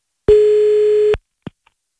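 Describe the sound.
A telephone dial tone sounds while a caller redials after being cut off: a single steady, mid-pitched tone lasting just under a second, stopping abruptly and followed by a couple of faint clicks.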